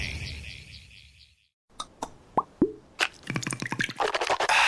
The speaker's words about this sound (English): You know what that is. That's the sound of wow with Listerine. Simply grab, twist, pour, and swish for 30 seconds